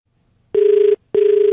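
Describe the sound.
Ringback tone of an outgoing phone call to a listener. Two steady, mid-pitched electronic tones of about half a second each are separated by a short gap.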